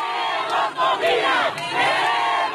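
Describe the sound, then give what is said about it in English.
A crowd chants "We want food" outside a supermarket in Caracas, Venezuela. The many voices are loud and rhythmic, with the chant repeating in steady phrases and brief dips between them. “That's the sound of people chanting, "We want food," outside a supermarket in Caracas, Venezuela.”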